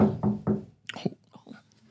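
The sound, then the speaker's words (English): Three quick, even knocks on a door, followed by a faint, hushed voice. “She goes and knocks on the door a few times.”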